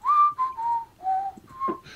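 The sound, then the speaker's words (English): A person imitates whistling heard in a prison cell block, producing several short, wavering whistled notes. The notes are mid-pitched and mostly steady, separated by brief gaps. “just somebody whistling”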